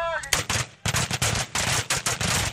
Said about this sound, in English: these Marines, honing their skills at a base rifle range, could soon be marching deep into the Johnson Valley.